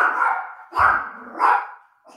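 A small dog of about seven pounds barks, giving a few sharp, high yips with a longer whiny sound at the start, loud and alone with no talk.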